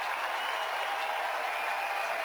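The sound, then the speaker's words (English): A Pittsburgh baseball crowd applauds pitcher Paul Skeens after his 200th strikeout. The soft, even roar of many hands clapping holds steady without a break. “Skeens strikes out 200, and here's a round of applause for him.”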